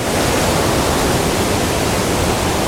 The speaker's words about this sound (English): Now then, I've come out to a bend in the river. Oh. The waterfall is around this corner,